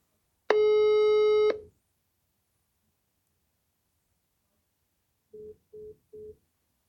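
Telephone busy tone after a call is rejected: one steady tone lasting about a second, a long silence, then three short evenly spaced beeps at a lower pitch, all fairly quiet.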